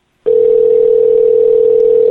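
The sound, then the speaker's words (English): A telephone call rings out on the line as a loud, steady tone at constant pitch. It starts abruptly after a moment of silence and holds unbroken to the end. “Pick up the phone.”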